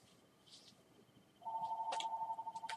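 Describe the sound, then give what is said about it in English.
An electronic telephone ring: a steady, pulsing mid-pitched tone starts partway through and continues loudly to the end, with a few short higher bleeps over it. “But, phone's ringing.”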